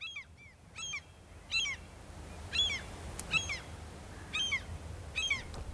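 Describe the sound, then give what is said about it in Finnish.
Gulls calling, a series of harsh, honking squawks repeated at uneven intervals over a low, steady background hiss, with no voices. “Lokit ovat täällä niin kuin 1910 ja samoin laivat.”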